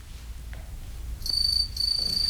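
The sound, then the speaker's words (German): House crickets chirp in a laundry room and by a stove. Thin, steady, high-pitched trills begin partway through over a low, constant rumble, break off briefly, then resume. “Nur die Heimchen zirpten in der Waschküche und am Ofen.”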